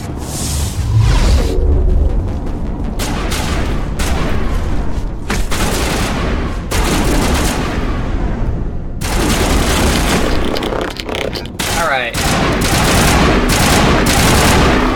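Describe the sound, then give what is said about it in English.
Rifle gunfire in a video game: loud, rapid shots and booming blasts come in dense bursts separated by brief gaps. “Alright, we're gonna switch back to our rifle.”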